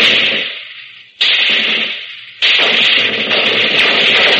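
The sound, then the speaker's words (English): Automatic fire from a Bren light machine gun, a small, low-cost World War II weapon, comes in three loud, sustained bursts. Each starts abruptly, and the first two tail off before the next begins. “First, the Bren gun. It's a small automatic weapon made at low cost but very effective.”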